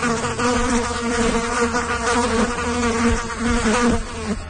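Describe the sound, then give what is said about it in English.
Black flies buzzing in a spring swarm, a dense, continuous whining drone with a fluttering, wavering pitch, steady and fairly loud throughout. “black flies are all the buzz. We'll find out why there are more swarming around you this spring.”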